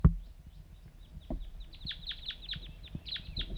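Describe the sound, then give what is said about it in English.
Wild birds call in a series of faint, short, high chirps that repeat quickly through the second half. “Start recording. Wild birds calling.”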